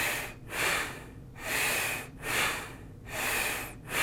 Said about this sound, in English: So that's the Bastrika breathing technique